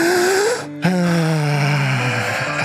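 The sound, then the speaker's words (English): A group of people take a deep breath together: a short voiced intake, a brief silence, then a long, loud, sighing exhale whose pitch sinks slightly as it fades, with no talk. “Can we all just take a breath real quick?”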